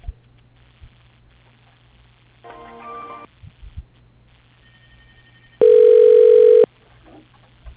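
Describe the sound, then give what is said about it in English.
Telephone ringback tone plays while a call is transferred to an office extension. A brief, fainter tone comes first, then one loud, steady tone lasting about a second, all over a constant low electrical hum. “Please hold while I transfer your call to...”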